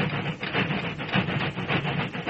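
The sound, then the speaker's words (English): Steam train labouring slowly up a steep grade, its chuffing beats coming in a steady, heavy rhythm over a constant broad hiss and rumble. “Then, forced to fight its way up a steep grade, the train slowed down till it was barely making headway.”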